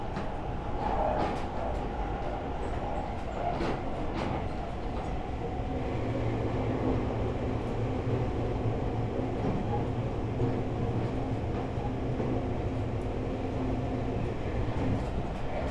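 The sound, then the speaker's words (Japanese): Steady rumble of a local commuter train bound for Shin-Kiba, running between stations: loud, continuous rolling noise and hiss throughout, with no distinct wheel beats. “各駅停車新木場行き54分発です。”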